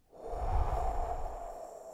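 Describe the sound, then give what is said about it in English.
A deep, long exhale during a guided breathing exercise: a soft, steady whoosh of breath that swells quickly and then slowly tapers over about two seconds. “Next breath, big and deep. And blow”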